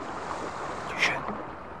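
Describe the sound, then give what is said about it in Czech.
Oars rowing a boat on the water: one soft splash-like stroke rises briefly out of a steady, hissing wash of water and wind. “Vesla. Někdo jede lodí.”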